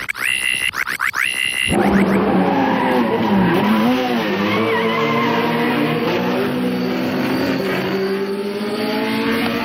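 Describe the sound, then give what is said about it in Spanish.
A race car speeds away with a loud, continuous engine roar and squealing tires. The whining pitch repeatedly rises and falls as it accelerates, preceded by a few short high squeals at the start. “Tomando como referencia el auto de Cider, NASCAR tomó su forma y se alejó de Turpirón a gran velocidad.”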